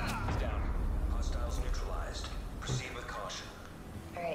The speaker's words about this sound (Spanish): No, ha tirado la torreta. Y hay otro que ha tirado la granada esta inteligente.